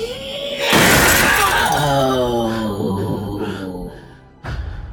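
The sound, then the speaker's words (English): First-floor glass windows burst outwards in a loud, sudden shatter. A dense crash trails into a long ringing, tinkling decay, and a second sharp burst of breaking glass comes just before the end. “The shrill sound, coupled with the force of her voice, caused all of the first floor windows to burst outwards.”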